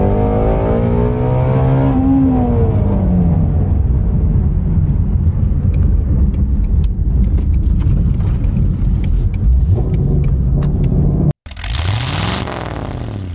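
Loud, continuous engine revving from a 2020 Ford Mustang Shelby GT350R, a deep roar that climbs in pitch early on, then holds. The engine cuts off briefly near the end before another sharp, raspy burst.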